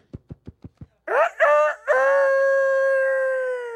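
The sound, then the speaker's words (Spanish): A rooster crows after five short, soft, evenly spaced thumps. The crow is loud, with a few broken rising syllables that end in a long, sustained, wavering note. “Canto el gallo.”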